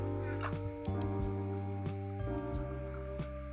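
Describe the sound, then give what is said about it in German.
A dog barks a few times in the video game Minecraft, short yaps over steady tonal game music and other brief game sounds. “Okay, Hund ist wieder geheilt. Ich glaube, Hunde greifen schon Skelette an, oder?”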